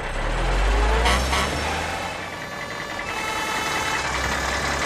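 A truck engine runs with a low, steady rumble, slightly louder near the start and then holding a fairly even level.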